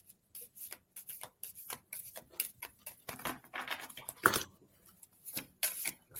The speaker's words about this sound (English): I'm going to reshuffle these cards.